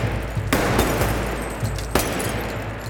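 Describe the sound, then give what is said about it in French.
A few sharp, loud gunshots from 9 mm Beretta pistols crack out at irregular intervals over a constant low rumbling background. “il est abattu d'une dizaine de balles 9 mm tirées par des pistolets Beretta”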